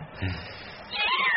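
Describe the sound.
A black cat meows in one drawn-out, wavering cry that grows louder toward the end, set against a dense, noisy background.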